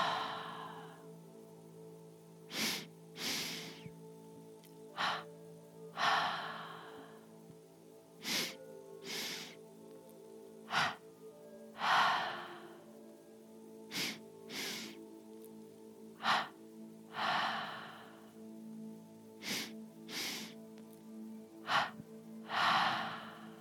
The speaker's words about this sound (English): Inhale sharply, a short breath, and a long breath. Exhale, a short breath, followed by a long breath.